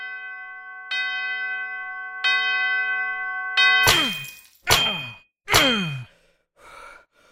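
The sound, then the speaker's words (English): An old, disused bell rings out in three clear, sustained tones that start moderately soft. Loud, harsh clangs with a falling pitch follow, then one fainter strike at the end. “his glance caught an old disused bell that hung in the room, which, with great astonishment and dread as he watched, began to swing, softly in its outset that it scarcely made a sound, but soon it rang out loudly.”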